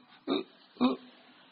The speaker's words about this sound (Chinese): 我跟你们讲话老打嗝，对不对啊？